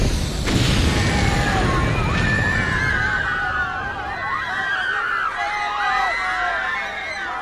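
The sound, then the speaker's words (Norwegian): An explosion set off with a detonator to blow up a clothing store: a loud, sustained roaring rumble with sharp bursts near the start, while high wailing tones drift over it throughout. “Nå det bare å finne frem detonatoren og sprenge hele Dressmann I filler.”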